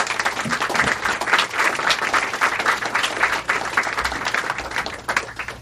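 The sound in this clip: An audience applauds a speaker after an introduction at a talk, the clapping loud, dense and continuous for several seconds without a break.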